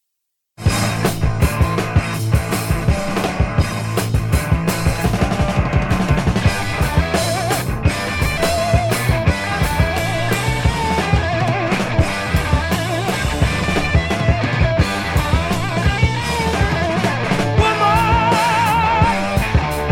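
Hard rock album track with guitars and drums kicks in loudly after a brief silence and plays on as dense, driving music with steady percussive hits and a full, raw sound.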